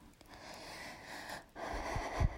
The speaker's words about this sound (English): I'm still like trying to like catch my breath.